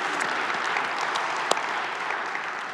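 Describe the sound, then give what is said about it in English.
A live audience in a church service room gives a big hand, a steady dense wash of clapping from many people, with one sharper clap standing out midway. “For those of you in the room, would you give our online and television audience a big hand?”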